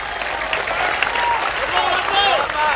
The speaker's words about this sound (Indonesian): Jangan tepuk tangan dulu. Cepat aja tepuk tangan.